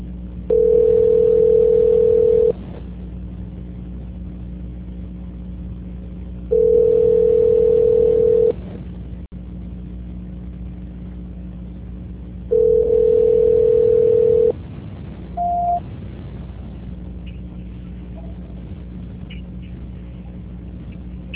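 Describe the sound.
Telephone tones sound during a call transfer: three long, steady mid-pitched tones separated by pauses, then a short higher beep, all over a faint constant hum.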